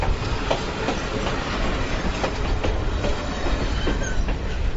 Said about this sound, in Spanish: La verdad es que por experiencia propia tengo que reconocer que vivir al lado de la vía del tren es bastante molesto